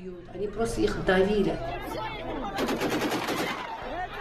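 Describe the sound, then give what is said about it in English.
Gunshots fired into the air crack out in rapid bursts amid a loud, shouting crowd at an anti-war protest. People yell and talk throughout, with a dense cluster of shots in the second half. “Shots fired into the air.”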